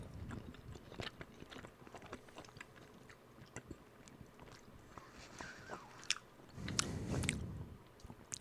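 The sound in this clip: Someone chews a green bean flavored candy: faint, soft crunches and wet biting sounds repeat in an irregular rhythm, with no talk.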